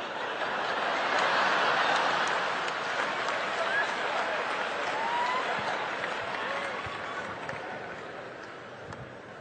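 A stand-up comedy audience claps in a dense, steady wash of applause that fills the whole stretch and eases off slightly toward the end.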